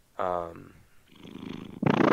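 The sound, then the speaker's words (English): A cat purring loudly after climbing onto a person. Brief talk and soft rustling come first, then a burst of strong, rhythmic, throbbing purring at the end. “My cat, he's on me right now, he climbed.”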